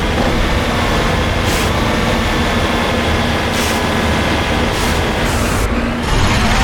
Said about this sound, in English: It certainly drives like a rover. It's got the driving quality of a rover.